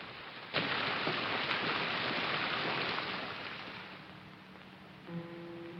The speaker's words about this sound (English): Wyatt heads out into the pouring rain